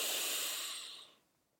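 A single long breath out during a yoga forward fold, a soft, breathy hiss that starts fairly full and fades away after about a second.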